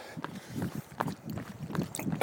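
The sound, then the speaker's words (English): Running footsteps along a long road in Spain, a steady rhythm of soft dull thuds with wind noise on the microphone and a louder burst of noise at the very end. “and I'm running along this long road with some kind of juniper trees or something tall, narrow, skinny trees.”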